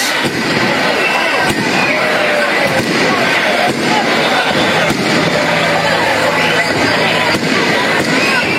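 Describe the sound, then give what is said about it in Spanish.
Festival firework bombs burst at the Rianxo festival: several sharp, loud bangs punch through a dense, steady roar of noise, with murmuring voices mixed underneath. “momento de bombas.”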